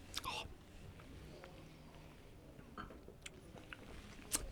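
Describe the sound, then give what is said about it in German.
A faint sip of a lemony, juice-like drink: a short slurping sound near the start, then a few soft mouth clicks scattered across the quiet remainder. “ich nehme noch einen Schluck.”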